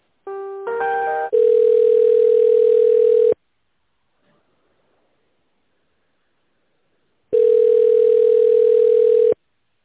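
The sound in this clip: Telephone line tone heard while a call is being transferred. A few short stepped tones come first, then a steady low hum runs for about two seconds, stops into silence, and the same hum returns for about two seconds.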